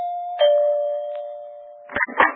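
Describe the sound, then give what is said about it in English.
A doorbell rings at a large country-club home, a sustained chime tone that slowly fades, followed near the end by a couple of brief, louder knocking noises. “I had to back up and take a running start to press the doorbell.”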